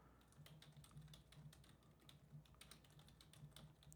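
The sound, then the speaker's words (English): Rapid typing on a computer keyboard while a paragraph is keyed in for a typing speed test: many quick, irregular keystrokes in a steady stream, faint and with no voices. “It's like it makes you type a paragraph or something,”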